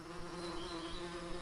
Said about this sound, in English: The buzz in this light switch isn't from the electrical charge. It's the sound of an entire ecosystem, a beehive.